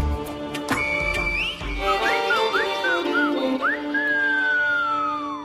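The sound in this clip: A person whistles a tune in bright, clear notes with quick upward slides, then settles into a long held note that slowly drifts down, over a steady droning background.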